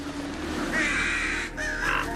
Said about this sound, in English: A roost of crows flaps away from the branches above her head.